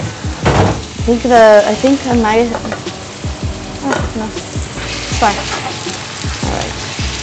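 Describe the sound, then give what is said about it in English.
Garlic sizzles and starts to burn in a hot frying pan: a loud, constant hiss and crackle with stirring scrapes and scattered spits and pops. “The garlic actually started to burn a little bit, so I had to be faster and cut the conversation for a little bit.”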